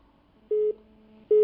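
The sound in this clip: Telephone line tones as a call from Algeria connects: two steady beeps at a mid pitch, the second starting after a short gap and still sounding at the end.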